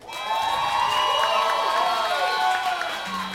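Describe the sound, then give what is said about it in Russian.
A crowd cheers and claps for the Yeltsin bar's fifth birthday, a loud sustained wash of whooping voices over scattered applause that holds steady throughout. “Ребята, у бара Ельцин 5 лет сегодня, день рождения. Давайте похлопаем.”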